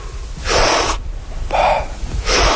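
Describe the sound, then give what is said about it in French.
Recovery breathing of someone just surfaced, elbows resting on a buoy: a few loud, breathy rushes of air, big active inhales and relaxed passive exhales, with no talk. “on met nos coudes sur la bouée et on va prendre nos respirations de récupération. Ça va être une grande inspiration, très actif et passif en expiration.”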